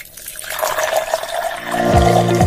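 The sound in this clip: Coffee being poured into a cup: a continuous splashing, trickling stream that grows fuller and louder toward the end. No talk.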